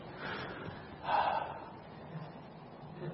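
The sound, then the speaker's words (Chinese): A person sitting down takes a deep breath in. The soft breathy inhale swells to a peak just after the first second, then quieter breathing follows. “是吸气的动作，是坐下来深吸一口气的这个动作”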